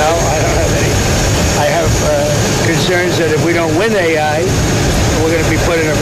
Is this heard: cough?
no

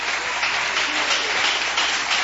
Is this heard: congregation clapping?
yes

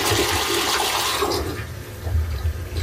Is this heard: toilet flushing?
yes

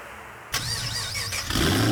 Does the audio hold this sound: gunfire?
no

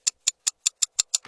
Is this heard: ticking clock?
yes

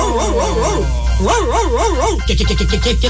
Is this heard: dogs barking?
yes

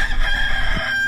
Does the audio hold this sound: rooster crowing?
yes

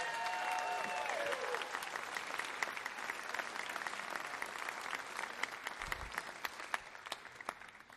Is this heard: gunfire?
no

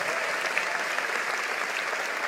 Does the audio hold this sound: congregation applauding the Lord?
yes

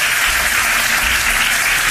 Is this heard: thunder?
no

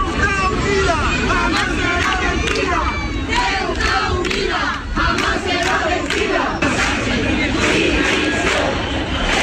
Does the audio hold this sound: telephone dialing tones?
no

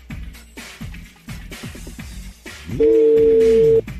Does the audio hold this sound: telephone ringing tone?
yes

